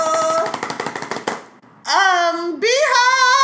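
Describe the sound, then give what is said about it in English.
A rapid drum-roll rattle of quick, even taps, made by hand, builds for about a second before a short pause. Bright, drawn-out voiced sounds follow. “And then the big news. Drum roll.”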